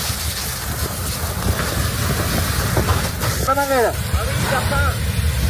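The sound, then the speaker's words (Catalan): The Los Gallardos wildfire in Almería roars as a dense, continuous rushing noise that holds steady throughout, with brief wavering voice-like sounds partway through. “El so de molts dels vídeos que ens estan arribant a aquesta hora, aquest és el so de l'incendi de Los Gallardos.”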